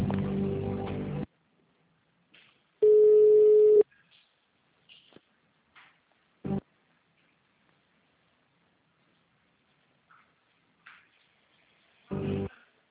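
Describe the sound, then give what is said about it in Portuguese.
A telephone line's ringback tone sounds while a call is transferred: one steady, mid-pitched tone lasting about a second, with a few brief faint noises in the otherwise quiet line. “Por favor, aguarde, que sua ligação será transferida.”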